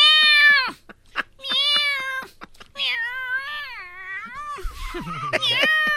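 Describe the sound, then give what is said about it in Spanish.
A human voice imitates a cat's meowing, giving a few loud, drawn-out, wavering meows with short pauses between them. “maulla y maulla. Ningún ratón se acercaba al gato porque estaba el gato.”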